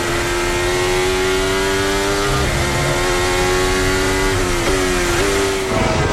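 A Formula 1 car's engine, recorded onboard, holds a loud, sustained, high-pitched whine. The pitch dips sharply a few times as the car shifts gears, with no voices over it.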